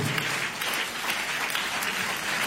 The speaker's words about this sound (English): Clap for Jesus.